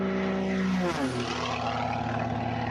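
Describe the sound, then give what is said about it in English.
The Folds of Honor biplane's propeller engine drones loudly as it gets ready for takeoff at an air show, a steady buzzing roar whose pitch drops early on before settling into an even hum. “getting ready for takeoff is Ed Hamster Hamill and the Folds of Honor biplane.”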